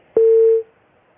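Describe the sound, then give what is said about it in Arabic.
Telephone tone after a caller's line disconnected: a single clean, mid-pitched beep lasting about half a second, alone against near silence. “معنا اتصال،”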